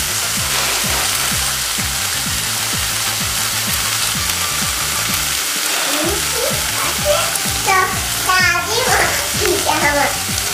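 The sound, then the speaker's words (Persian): Sausages frying in a pan while being stirred, a steady dense sizzle running throughout, with occasional scraping and faint voices showing up in the later seconds. “سوسه که سرخ کردیم و بقیهش هم داریم سرخ میکنیم.”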